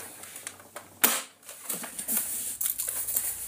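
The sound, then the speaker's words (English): A gun fires a shell with one sharp, crackling report, followed by a run of quick mechanical clicks and clacks as it is reloaded, all fairly faint. “And that was the first shell. Reloading.”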